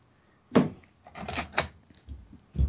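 A door being shut against the cold, giving a few dull knocks and thuds with a brief clatter of handling between them, then a final firm bump at the end.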